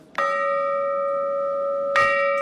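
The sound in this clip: A church bell hanging in a tower is struck twice, each blow ringing out as a loud, clear metallic tone with bright overtones that hums steadily between strikes, without any voices.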